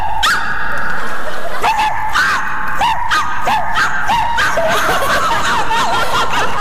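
Two people imitate dogs, letting out many quick, yelping bark-like cries over a steady background, with snickering mixed in.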